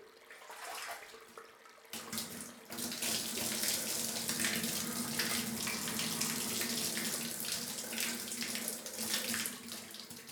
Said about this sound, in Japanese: まずは髪をお湯で濡らしますので、目をつむってくださいませ。